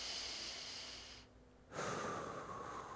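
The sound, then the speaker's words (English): A deep breath, drawn in and let out as a long, airy, noisy rush of air with a brief quiet pause in the middle. “Take a deep breath today. Will you do it with me?”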